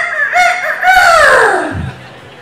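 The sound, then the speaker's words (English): A voice imitates a fighting rooster crowing in one loud, drawn-out, harmonic-rich call whose pitch sweeps downward at the end. “here comes this fighting rooster. He lands about from here to that table right there, and he goes,”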